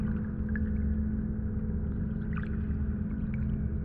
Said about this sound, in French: d'être là, au cœur de la nature, d'être là à suivre le rythme et le flux de ce cours d'eau